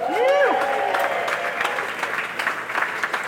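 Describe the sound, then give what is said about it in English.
An audience applauds to welcome a guest to the stage: sustained, dense clapping that starts loud and eases slightly while holding steady, with a voice heard over it. “Our first guest that I'd like you to put your hands together is for Aaron Pye's wife, Cher Pye.”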